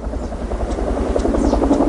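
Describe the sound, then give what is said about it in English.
Helicopters work over a lake to fight a wildfire, dipping down to fill water buckets. They make a steady, loud rotor drone with a throbbing low thump beneath a broad engine rush. “Over the lake, helicopters dip down to fill buckets with water to dump on the side of the fire nearest the resort.”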